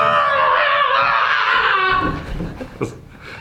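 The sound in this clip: An exaggerated fake scream in a shrill falsetto voice, held loud and steady for about two seconds before breaking into softer, choppy vocal sounds.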